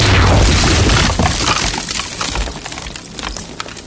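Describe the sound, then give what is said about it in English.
A loud shattering crash, as of a beam of light smashing through a wall, bursts out at once. Breaking, glassy fragments and rumbling debris follow as the sound slowly decays and scatters. “Suddenly, a beam of light smashed through one of the walls.”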